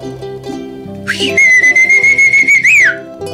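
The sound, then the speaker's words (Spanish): A muleteer's whistle: a shrill, sustained tone that slides upward at the start, then holds with rapid pulsing. Near the end it swoops briefly higher before falling away, over faint background tones. “Clásico en él eran el chiflido de arriero”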